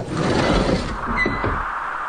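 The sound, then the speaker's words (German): Bulkhead door opening in a Flash Gordon science-fiction audio drama: a steady mechanical whoosh with a brief high whine near the end before the sound thins out. “Wie öffnet man das Schott, Dr. Zarkov? Na so, es ist ganz einfach.”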